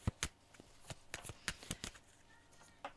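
Tarot cards being shuffled and drawn, heard as many quick, crisp snaps and riffles in an irregular rhythm, fairly faint, with no voices.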